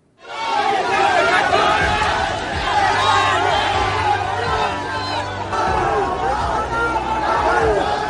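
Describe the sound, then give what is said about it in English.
Loud, sustained crowd cheering from thousands of aspirants for the Uttar Pradesh police constable exam. Many overlapping shouts and whoops stay dense and steady throughout. “Thousands of aspirants cheered as the government notified that there would be a re-examination for the UP police constable test.”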